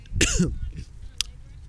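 A person clears their throat with a harsh, rasping cough brought on by a tickle in the throat, outdoors. A short, faint second throat sound follows.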